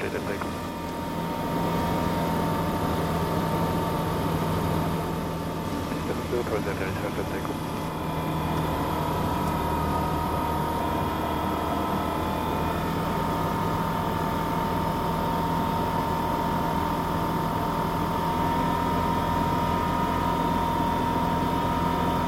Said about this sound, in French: Allez, les derniers mètres, la piste se rapproche et... Et on entend que le moteur...